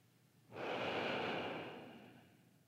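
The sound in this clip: A single slow, deep breath during a guided body-awareness relaxation: a soft, airy rush rises suddenly, holds steady for about a second, then gradually fades away, with no talking over it.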